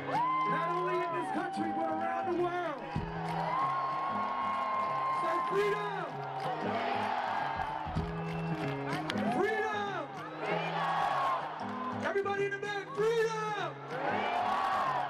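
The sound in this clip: At an open-air pop concert, a crowd chants a song's refrain, the massed sung voices rising and falling over continuous music, with scattered cheers and whoops mixed in.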